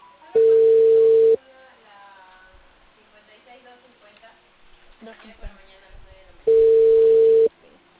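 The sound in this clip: Ringback tone of an unanswered phone call: two long, steady mid-pitched beeps several seconds apart, with quiet talk in the gap between them.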